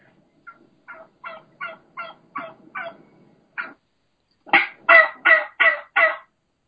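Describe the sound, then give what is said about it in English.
A wild turkey hen yelps near a gobbler: about eight soft, evenly spaced yelps, then five louder, harsher yelps in quick succession. “there's a gobbler, obviously, and he's got a small group of hens. And there's one hen that's doing the high pitch, fast pace, that higher, that just regular, normal, plain yelp.”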